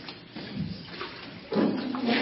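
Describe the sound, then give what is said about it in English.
Water sloshing and splashing as a person steps into baptism water, a few soft surges with a louder swell in the second half. “So come on into the water.”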